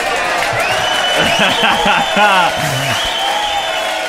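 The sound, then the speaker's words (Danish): Applause and cheering from a studio audience, with steady clapping under whoops and shouting voices that rise and fall throughout. “Vi skal give et bifald til Kappa Shorts.”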